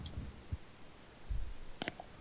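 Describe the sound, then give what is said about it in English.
A phone being hung up gives a single faint, brief click near the end, after a couple of soft low thumps in quiet surroundings. “Click.”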